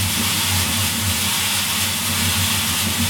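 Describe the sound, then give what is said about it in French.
Coffee roaster's large drum turns hot beans inside its cylinder, a steady mechanical rumble with a low droning hum and constant airy hiss that stays even throughout. “Là, il tourne, il est comme dans un espèce de cylindre en train de tourner pour pas qu'il colle.”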